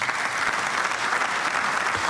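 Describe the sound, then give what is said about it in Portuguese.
Applause in the Azores regional parliament, led largely by government members, after a conciliatory speech by the socialist parliamentary leader: dense, steady clapping that holds at an even, fairly loud level without a break. “Intervenção de Berto Messias, curiosamente aplaudida por grande parte dos membros do governo”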